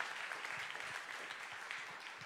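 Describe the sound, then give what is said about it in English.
Faint, quick hand clapping from a church audience during a worship service. The clapping is an even, continuous patter that lasts a couple of seconds with no voices over it. “Can we just pause for a minute and give God a hand clap?”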